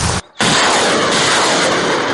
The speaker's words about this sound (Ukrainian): вкотре вдосконалювали свої вміння нищити ворожу силу та техніку з реактивної артилерійської установки «Град». Два снаряди вогонь, два снаряди вогонь.